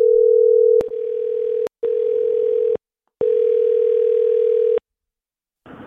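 A telephone tone sounds while a number is being called: a steady, low, unbroken hum interrupted by a couple of sharp clicks and short gaps, then a longer silence and a brief burst of noise at the end.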